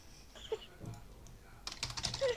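Faint, quick keystrokes on a computer keyboard come in scattered taps at first, then in a denser burst of clicking toward the end.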